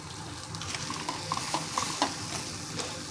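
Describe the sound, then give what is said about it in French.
Red mullet fillets frying in a hot pan give a steady, dense sizzle with a few sharper crackles and pops rising above the continuous hiss. No voices. “Les filets de rouget sont bientôt cuits.”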